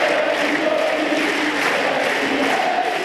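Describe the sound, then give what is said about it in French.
Tennis crowd at Roland-Garros chanting a player's name: a dense, continuous roar of many voices with faint sustained chant tones running steadily throughout. “Le public qui scande le prénom de Kwame, c'est le nouveau tube de Roland-Garros.”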